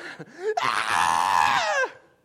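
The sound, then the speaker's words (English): A voice imitates men screaming. A short vocal lead-in is followed by one loud, drawn-out scream that holds steady and then drops in pitch as it ends. “And that's just going to be the men screaming.”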